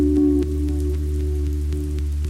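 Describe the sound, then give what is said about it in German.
Rain falls on the campus of an old English university, a steady wash of patter with scattered sharper drop hits. A low, constant hum runs underneath throughout. “Es regnet auf dem Campus der University of Oxford.”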